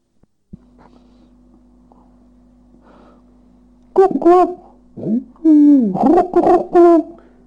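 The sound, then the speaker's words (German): A man imitates the cooing of doves with a run of low, breathy hooting coos that rise and fall, heard over a steady electrical hum after a few seconds of near silence. “Auch die Stimmen der Tauben konnte der Professor gut nachahmen. Herr Professor, wie machen es die Tauben?”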